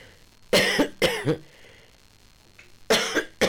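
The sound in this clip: Coughing and throat clearing from a person with a sore throat attributed to changing weather: a few harsh, loud bursts in two clusters, separated by a quiet gap, with no talk.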